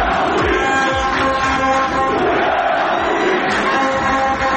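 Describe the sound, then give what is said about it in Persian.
Stadium football spectators chant in support of footballer Voria Ghafouri: a dense, loud, continuous crowd roar with shouted voices and rhythmic low thumps throughout. “آقای بوریا غفوری به وزارت ورزش احضار شده بود دیروز تماشاگران اینجوری تشویقش می‌کردن”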